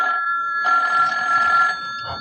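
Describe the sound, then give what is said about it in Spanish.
A telephone ringing: one bright, buzzing ring burst lasting about a second, with a steady electronic tone before and after it. “El teléfono. El teléfono al fin.”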